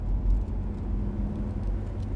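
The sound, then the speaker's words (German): Car engine as a car drives off: a steady, low rumbling drone with a faint tonal hum inside it, moderately quiet and unbroken, with no voices. “Vater fährt das Auto los.”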